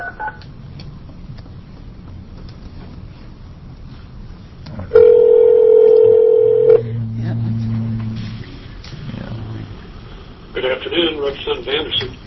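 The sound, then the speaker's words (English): A telephone dial tone sounds on a freshly plugged-in phone line used to call a participant into a state Senate committee meeting: a steady, loud tone for about two seconds, then lower buzzing tones, with people talking around it. “We're going to try to get Representative Gordon Anderson on the phone now that we've plugged it in, and probably we'll have a dial tone that will allow us to let him participate in the next portion of the meeting.”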